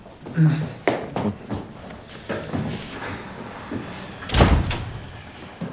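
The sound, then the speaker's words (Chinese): A door is shut with a single solid thud partway through, preceded by a few scattered soft knocks and movement sounds. “门关上。”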